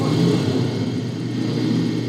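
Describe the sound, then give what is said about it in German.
A motorcycle engine drones as the rider speeds away, a steady mid-pitched rumble with a rough buzzing edge. It holds at an even loudness throughout, with no clear rise or drop. “Er steigt auf sein Motorrad und schießt davon.”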